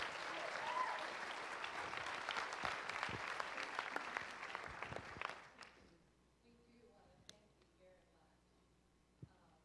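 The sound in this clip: A church audience at Whitley Church applauds to welcome a guest speaker: dense, steady clapping for about six seconds that then fades, leaving a few scattered claps and small noises.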